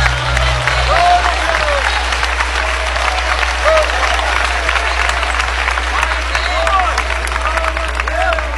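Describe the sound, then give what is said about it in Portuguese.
A church audience applauding in praise during a service: dense, continuous clapping runs the whole way through at an even level, with faint voices mixed into the crowd over a low hum. “Pode louvar a Deus com as palmas.”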